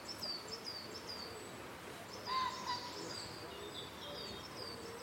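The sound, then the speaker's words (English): Soft, faint cooing of a wood pigeon in woodland beside a picnic area, low hooting notes under steady hiss with thin, high bird chirps above. “So that's the wood pigeon again. Yeah. I'm getting wood pigeon.”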